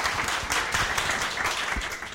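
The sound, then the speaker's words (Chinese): Audience applause welcoming the featured speaker at a talk, a continuous clatter of many hands clapping, steady and fairly loud, easing slightly toward the end. “那我们最重要欢迎请大家热烈欢迎我们今天主讲冯光远先生。”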